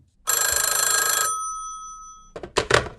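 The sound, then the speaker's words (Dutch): A telephone rings while a call is being placed: one loud, rapidly trilling ring burst that fades out, followed by a few brief knocks. “Wij gaan vandaag bellen met Kira.”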